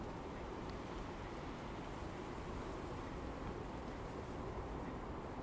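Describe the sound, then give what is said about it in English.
Wind blows outdoors on an icy day, a continuous broad roar that holds a steady level throughout with no talk. “That's a refreshing wind, very refreshing.”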